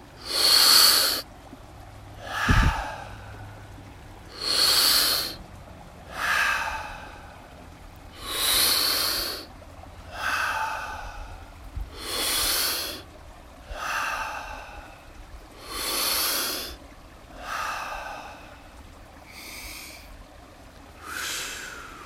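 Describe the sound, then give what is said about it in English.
Deep breathing in and out through the mouth, with many loud, airy breaths in a slow, steady rhythm, each a rushing whoosh, heard alone without talk. “And then we're going to begin with a deep inhale through the mouth. Exhale through the mouth.”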